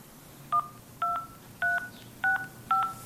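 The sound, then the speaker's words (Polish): Five short telephone keypad tones beep at even spacing as a phone number is dialed, each a brief clean two-note burst standing alone over quiet background hiss. “W wybieranych numerach jest cały czas. Dzwonimy często do siebie”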